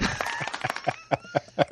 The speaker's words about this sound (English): Oh, it's just... golf clap for that one.